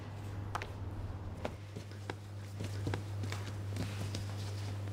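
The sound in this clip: Sourdough being slapped, pushed and kneaded on a floured work surface, heard as many soft, irregular thuds over a steady low hum.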